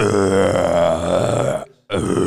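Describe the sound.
A voice imitates a burp: a long, low, guttural croak lasting over a second, then a brief silence and a second belch-like rasp.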